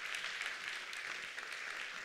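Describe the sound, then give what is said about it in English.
A church audience applauds its worship team, a quiet, steady patter of many hands clapping together, soft and even throughout with no talking over it. “can we give a round of applause for our worship team just leading us today”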